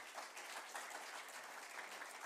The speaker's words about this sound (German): gebt ihr doch auch einen großen Applaus.